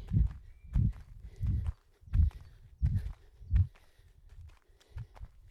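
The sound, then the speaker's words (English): Footsteps from skipping in place during a workout warm-up: a steady series of soft, low thuds in an even bouncing rhythm, with no voice over them. “And then the last minute I'm going to put a bit of skipping in.”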